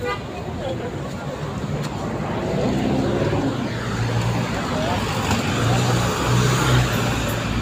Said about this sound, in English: Let's take a drive to Kariobangi Hands of Love Educational Center.